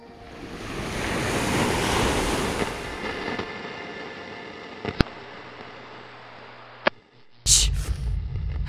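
Ocean surf rushes in a broad, hissing wash that swells early and then slowly ebbs, broken by a few sharp clicks and a brief loud burst near the end.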